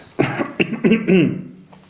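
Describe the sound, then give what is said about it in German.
A small cough and throat clearing, a few short, breathy bursts followed by a rougher, voiced clearing of the throat, moderately loud and with no other sounds. “Er hüstelte”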